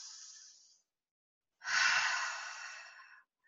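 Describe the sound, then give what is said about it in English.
A deep breath in is drawn during a calm grounding exercise as a long, airy rush lasting over a second. A shorter, fainter breath sound comes before it. “I take another deep breath in.”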